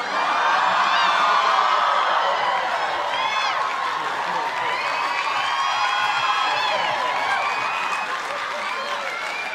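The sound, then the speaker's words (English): Studio audience at a Friends sitcom taping erupts in sustained applause and cheering, with scattered whoops rising above a dense, steady roar that holds loud for the whole stretch. “And it was the audience reaction, because they were just going to have it as a one-off between, you know, Chandler and Monica. And then they're just like, well, that reaction says everything.”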